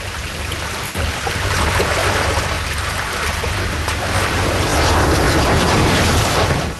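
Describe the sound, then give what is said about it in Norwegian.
The Magasuget ride at Bø Sommerland rushes past at enormous speed as the park director plunges down on a test run: a loud, continuous roaring whoosh with a splashing, water-like texture, briefly dipping early on and then swelling, with no voices. “Og det en vill fart på direktøren som stuper ned. Magasuget, han føyk forbi her I en enorm fart.”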